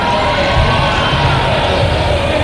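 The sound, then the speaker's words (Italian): A crowd cheers Pope Leo at the Rimini fairground, a steady, loud wash of voices with shouts and whoops blending into one continuous roar throughout. “Davvero un bel sorriso quello di Papa Leone, cioè, con questi bagni di folla”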